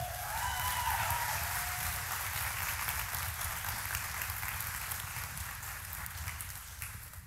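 An audience applauds to welcome a pastor back to the stage, producing a thick, steady wash of clapping that continues for over seven seconds and eases only slightly toward the end.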